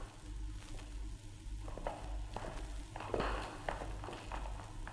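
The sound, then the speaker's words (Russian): Footsteps going down stairs and along corridors, soft and faint, a few uneven steps over a low steady hum. “Они спустились вниз по лестнице, как будто в погреб, и долго-долго шли по разным переходам и коридорам”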